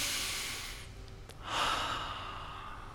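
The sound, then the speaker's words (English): A deep breath drawn in: a long, soft, airy rush of breath. A second, louder breathy swell follows, with no talking. “And then I decided to take a deep breath. And actually, everybody do that, do this with me. Ready? Deep breath in.”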